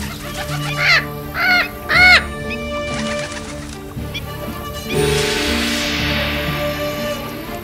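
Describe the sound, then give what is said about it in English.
An agitated bird squawks with harsh, rasping caws, three loud calls in quick succession, followed by quieter scuffling noise and then a broad rushing burst that slowly fades away. “I have never known a bird to behave like this, ever.”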